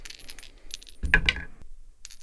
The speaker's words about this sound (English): God, I love those chime dice so much. Yeah, it's incredibly... It's like ASMR.